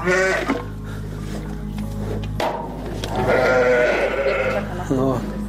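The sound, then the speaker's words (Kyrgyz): White Arashan-breed sheep bleat in a few wavering, nasal calls, loud and close together, while people talk over the flock. “Жүйдүн беш көрүк айылындагы Бакыт Асымбаевдин чарбасында арашан асыл тукумундагы 53 акты кой бар”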